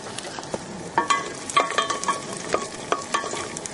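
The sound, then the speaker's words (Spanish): Garlic cooking in a pan: a steady soft sizzle of frying punctuated by many quick scraping and tapping strokes of stirring, with no talk. “Vamos a cocinar los ajos durante un rato para que queden bien tiernos.”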